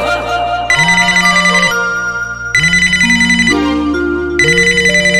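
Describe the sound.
An electronic ringtone melody plays while a phone rings during an outgoing call, loud and bright, repeating in three bursts with short gaps between them.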